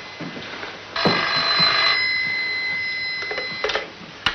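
A telephone bell rings in one long sustained burst of bright, metallic tones, with a few faint clicks before and after.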